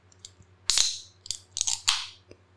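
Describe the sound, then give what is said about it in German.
Whisky and cola slurped through a beard: a few short, wet, hissy bursts of sucking air and liquid, clustered in quick succession over a faint low hum, with no talking. “Das klingt so, wenn man Whisky Cola durch seinen Bart schlürft. Ich wollte ein Rätsel draus machen, was ich gerade trinke.”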